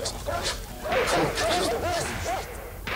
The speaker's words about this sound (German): Hört ihr? Die Spanier kommen mit ihren Hunden.